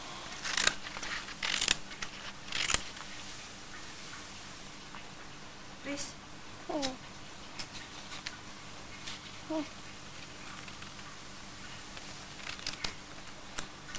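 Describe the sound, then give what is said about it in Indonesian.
Scissors cut through the end of a sheet of paper, giving a few sharp, crisp snips near the start and scattered quieter snips and rustles later, with faint sounds of people nearby. “Kertasnya yang ujung deh digunting. Ini dia gunting.”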